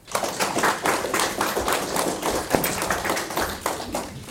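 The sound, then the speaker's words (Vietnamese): Crisp, sustained applause from an audience at a Buddhist dharma talk, with many hands clapping in a fairly loud, even stream that carries on throughout. “Mừng quá, vỗ tay giòn ghê.”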